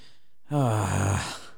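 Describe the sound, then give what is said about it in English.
A voice imitates the heavy, annoyed breathing of a fast-food drive-through worker: after a moment of silence, a single loud, voiced sigh with a slightly falling pitch, tapering off into breath. “like she was like breathing in heavy, like getting annoyed.”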